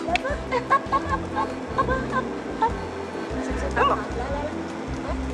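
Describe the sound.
A dog that looks like a wolfdog barks a few sharp, short times, with some yips, while people talk over and around it.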